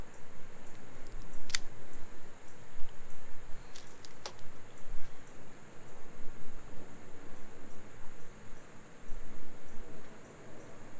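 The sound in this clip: The end of a Lancero cigar is snipped with a cutter, a brief crisp click followed by a couple of lighter clicks over a steady hiss.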